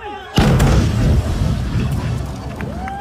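A loud explosion from a movie stunt bursts suddenly after a brief quieter lead-in, then continues as a sustained roaring, rumbling wash of noise.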